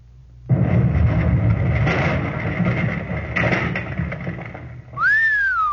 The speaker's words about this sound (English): So that's what a satchel charge does, eh? Look at that cottage. Where the heck is it to look at? Round to smithereens. As you can see, boys, these satchel charges can make the Nazis very unhappy.